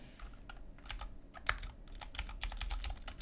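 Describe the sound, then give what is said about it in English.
Rapid typing on a computer keyboard produces many sharp, irregular key clicks in quick uneven bursts over a low steady background hum, with no voices. “sorry, my keyboard.”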